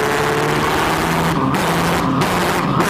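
A loud car engine rumbles steadily with a deep, throaty drone and constant hiss, holding one level with no pauses.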